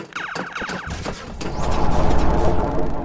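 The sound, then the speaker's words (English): Guards fire sci-fi blaster-style shots at a fleeing rebel: a quick run of sharp zapping bursts, then a louder, dense swelling roar. “Stop, rebel scum! Quick, shoot him before he goes through the force field.”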